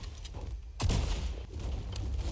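Gunfire in a video game: one sharp, heavy shot cuts in early over a dense, noisy wash of continuous firing that stays loud throughout, with no talk.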